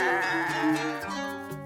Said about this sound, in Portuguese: encontrou no meio da sala um bode.